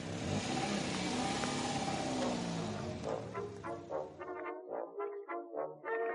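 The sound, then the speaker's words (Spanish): Car engine revs as the accelerator is pressed: a dense, steady roar holds for about four seconds, then breaks into a quieter, choppy pulsing tail, with no voices. “Y tras la señal, Tomás obedece y aprieta el acelerador.”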